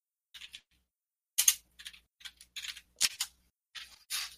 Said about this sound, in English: So you type that in Google? Is that where you're typing that?